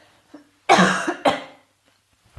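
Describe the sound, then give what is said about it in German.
A person coughs after choking on something swallowed the wrong way: a couple of rough, forceful coughs in quick succession, with near silence before and after. “Entschuldigung, wenn sich jemand jetzt nicht wohl fühlt, wo ich gehustet.”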